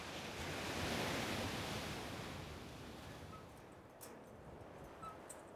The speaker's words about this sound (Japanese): でも本当に気持ちいいね。海なんて本当久しぶりだよ。